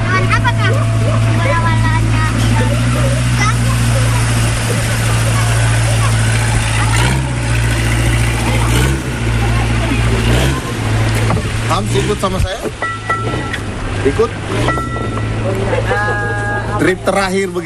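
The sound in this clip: A boat engine drones steadily with a deep, even hum while divers prepare their gear on deck, setting up dive tanks and stabilizers. A voice talks over the constant rumble throughout.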